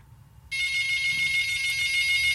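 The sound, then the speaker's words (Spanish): A phone rings with an incoming call. After a faint low hum, a bright, steady, high-pitched electronic ringtone starts abruptly and holds loud and unbroken to the end. “Alguien me está llamando y, bueno.”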